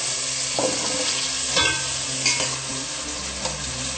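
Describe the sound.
Steady frying sizzle with stirring as chopped vegetables, including carrot, cauliflower, tomato and cabbage, go into a salted pan. The sizzle holds throughout, with a few louder scrapes and clatters of the stirring spoon.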